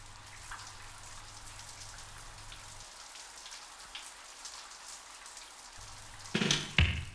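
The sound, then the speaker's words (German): Rain patters on windows in a steady, fine crackle of drops throughout. A couple of louder knocks come near the end. “Hört sich das gut an oder hört sich das gut an, wenn der Regen so auf die Fenster plätschert?”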